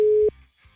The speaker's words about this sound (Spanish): Bueno, vamos a marcarle entonces, mi querísimo Rafiki. A ver si nos contesta.